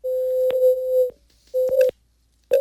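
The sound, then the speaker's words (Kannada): A telephone disconnect tone sounds after a phone-in call drops, a steady mid-pitched electronic tone that plays alone in a few repeated bursts separated by short silences. “ಕರೆ ಕಟ್ಟಾಗಿದೆ.”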